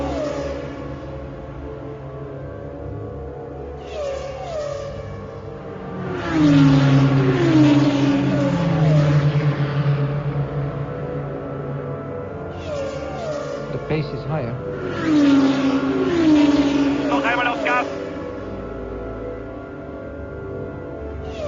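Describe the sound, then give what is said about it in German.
A Formula 1 race car accelerates in fourth gear through the last corner, its engine rising in pitch in two surging, high-revving runs over a steady background roar, with a voice talking throughout. “Die wird im Formel 1 wahrscheinlich im vierten Gang. Die letzte Kurve.”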